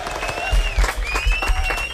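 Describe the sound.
Audience applause in a children's show, a steady wash of many hands clapping that holds for about two seconds at an even, fairly loud level.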